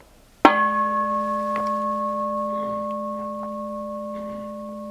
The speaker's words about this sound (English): There's always this true bell that moves us along with clarity and precision, you know?